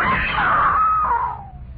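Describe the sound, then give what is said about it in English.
A woman screams once, long, loud and high-pitched, with the pitch falling and the sound trailing off toward the end. “I screamed.”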